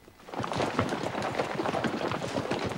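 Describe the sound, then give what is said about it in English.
Hooves clip-clop steadily as a troop of Yankee horsemen rides two abreast along a narrow path through dense woodland, with many hoof beats running together at a constant level. “The band of Yankees ride their horses two abreast along a narrow path through the dense woodland.”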